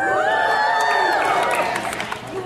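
A live audience at a book discussion event cheers and makes noise, with loud overlapping shouts and high whoops over a constant crowd roar that eases slightly toward the end.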